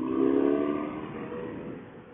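Motorcycle engine overtaking another vehicle: a steady droning roar with a tonal hum at first, easing gradually over about two seconds.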